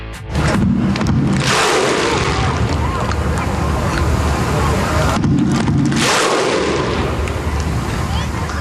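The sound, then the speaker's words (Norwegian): A vast crowd of several thousand Icelanders roars out the Viking thunderclap chant while welcoming their national football team home after Euro 2016. The roar stays loud and continuous, with two big surges of massed shouting. “Og vi kan jo høre hvordan det hørtes ut når flere tusen islendinger hadde samlet seg for å ønske landslaget velkommen hjem.”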